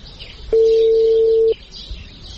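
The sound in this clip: A single steady electronic phone tone, mid-pitched and lasting about a second, sounds as a mobile number is dialed, with faint background noise before and after.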